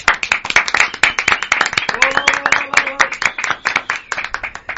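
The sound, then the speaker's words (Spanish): Dense, steady applause and clapping welcome a visiting band, with rapid overlapping hand claps running throughout and voices rising briefly above the clapping midway. “Muchas gracias, un aplauso por favor.”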